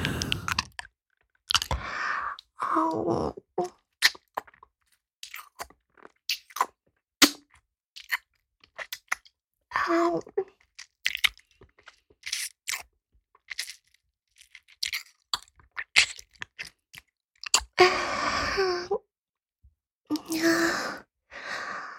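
Crab is chewed and eaten, with many sharp crunchy bites and clicks scattered between quiet gaps, along with a few soft breathy exhales.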